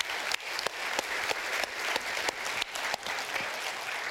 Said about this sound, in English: Church family, those of you who are regular, can we put our hands together and welcome all of our guests this morning?